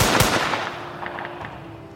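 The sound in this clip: A rifle volley, fired together by a line of soldiers at a canyon during a battle, opens with one sharp, loud crack. It decays into a fading rumble, with a few faint pops trailing afterward.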